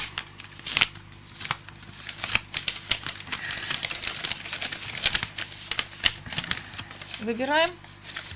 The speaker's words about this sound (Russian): Открываем конверты.